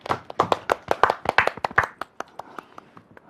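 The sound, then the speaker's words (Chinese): An audience claps to welcome a young dancer onto a stage: sharp, loud, rhythmic claps at first, then thinning and fading into lighter, scattered claps toward the end. “接下来我们掌声有请小奥哥哥。”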